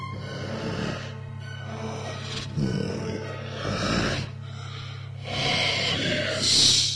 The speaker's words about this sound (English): The sound of my breath traveling up your neck.